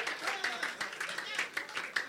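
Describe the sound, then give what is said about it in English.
Church audience clapping for Jesus, a faint, steady, rhythmic run of claps at a quick even pace, with voices sounding along under it. “Clap for the Lord Jesus.”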